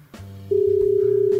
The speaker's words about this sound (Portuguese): A gente tá ligando no WhatsApp, né?